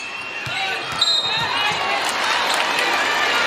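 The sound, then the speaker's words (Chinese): A basketball being dribbled by Bogues during a game against Spain bounces several times in a steady rhythm, each short thump sitting under crowd noise and talk. “现在博格斯运球有点多”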